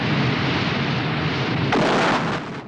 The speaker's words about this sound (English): Craig fires a shell, rupturing the side of the fuel tank. Fuel gushes out and pours down a slope.